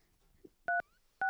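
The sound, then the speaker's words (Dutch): DTMF tones from a home landline number being dialed on a telephone keypad: short, loud, steady two-tone beeps, one after another, with quiet gaps between them. “We toetsen het nummer in.”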